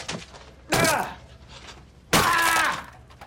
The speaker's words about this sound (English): This shitty computer isn't taking my password. Rick destroys a laptop.